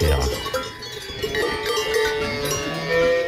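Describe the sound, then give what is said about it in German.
Cowbells ringing on grazing cows on a mountain pasture: many overlapping, irregular metallic clanks form a continuous jangle throughout. “In Italien hat sich eine Touristin über diese Kuhglocken beschwert.”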